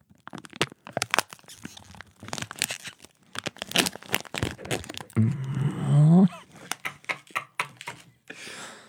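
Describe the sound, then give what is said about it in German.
Crinkling and tearing of a Ritter Sport chocolate bar's wrapper, with many sharp crackles and crunches in an uneven rhythm, followed by a few brittle snaps as the bar is broken. “Warte, ich esse jetzt ein Rittersport.”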